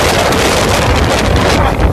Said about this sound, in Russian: Ветер сейчас такой.